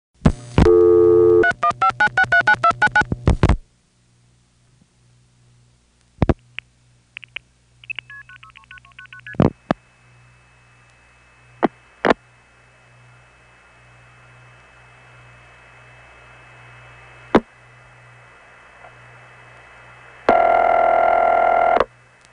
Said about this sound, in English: Sometimes there is silence during the time the Crossbar 5 tandem is dialing out. Here's Mexico, New York via Oswego.